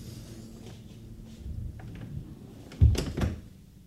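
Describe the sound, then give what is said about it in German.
A door is shut with a firm thud near the end, followed quickly by a second, softer knock. Quiet shuffling comes before it, and no one speaks. “Erlauben Sie, dass ich hereinkomme und dass ich die Tür wieder zumache?”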